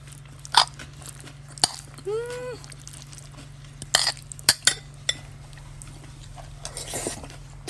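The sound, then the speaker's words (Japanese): Curry rice from Toyosu Market, topped with shredded cabbage, is bitten and chewed, giving soft crunches and moist chewing clicks with a few sharper bites, all fairly quiet over a steady low hum. “どうぞちょっと聞いてみてください。この刻みキャベツのせて、おいしい。”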